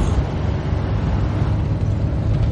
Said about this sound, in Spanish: En la autovía el coche negro circula hacia un túnel.